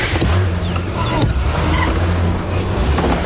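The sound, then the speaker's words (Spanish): A car drives away with a steady, loud engine rumble that holds across the whole clip, with a few brief higher whines rising above it. “se marcha conduciendo nerviosa.”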